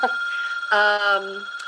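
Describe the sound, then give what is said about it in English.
A telephone ringing, a steady electronic tone that swells midway into a louder, layered ringing burst before easing off, about a second and a half in all. “And I apologize for that phone ringing.”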